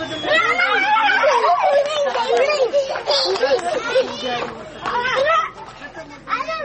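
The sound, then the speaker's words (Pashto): Many children chatter and shout at play in the dirt, their faces and hands dusty, among families displaced from Helmand; a loud, continuous overlapping babble of young voices with occasional higher squeals. “په خاورو خوځلو بوخت تور مخ او ککړ لاسونه ګڼ شمېر ماشومان لوبې کوي”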